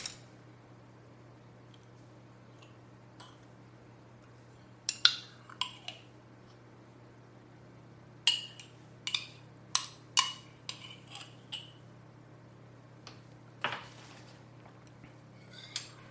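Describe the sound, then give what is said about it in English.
Spoons clinking as metal spoons, one clean and one used, are handled: scattered sharp taps and chinks at irregular intervals, quiet and clustered in places, over a faint steady low hum. “That is a clean spoon. This one is a used spoon.”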